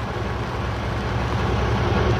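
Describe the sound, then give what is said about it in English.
A deep, steady rumble and grinding drone comes from an armored urban assault vehicle rolling over a debris field, a continuous low, heavy roar with a faint rattle, holding level throughout. “the imposing advanced urban assault vehicle known as the Crawler rolls up to and easily traverses the debris field at One Pasta Place.”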